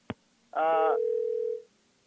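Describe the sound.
A telephone line makes its tone after a call is cut off: a sharp click, a short pause, then a brief buzzy tone that settles into a steady single-pitched tone lasting about a second before going quiet.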